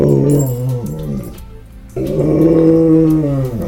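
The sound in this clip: A dog growls in long, throaty, droning stretches with a slightly wavering pitch. The sound breaks off briefly midway, then resumes loudly.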